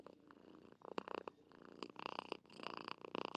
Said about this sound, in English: She's purring into the microphone. She's happy to be here.